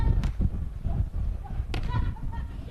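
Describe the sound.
Sharp slaps of a ball being struck at a beach volleyball serve: two crisp, punchy hits about a second and a half apart over a low background murmur.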